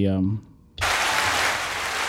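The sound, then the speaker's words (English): Dense applause for the wrestlers' section title bursts in after a short spoken phrase and a brief pause, then carries on loud and steady to the end. “get the applause for a big section title there. So nicely done, wrestlers.”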